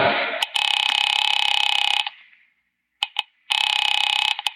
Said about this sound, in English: Picking it up quietly, I dialed my daughter's number.